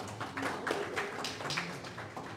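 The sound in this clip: Faint scattered clapping from people at a grant-awarding ceremony, a thin patter of individual claps rising and falling in loose irregular bursts.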